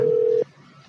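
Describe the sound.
A telephone call rings out as a single steady electronic tone lasting under half a second, then cuts off to faint background noise.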